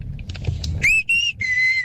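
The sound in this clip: A person whistles the call a mother used to bring her child home. Three loud, sustained whistled notes play over a low background rumble. The first note rises in pitch, and the next two hold steady.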